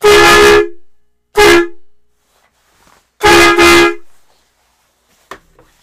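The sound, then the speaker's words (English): Air horn sound effect: four loud, blaring toots of steady pitch. Two are separate blasts, then a gap, then two back to back, and silence follows. “Here's your toot.”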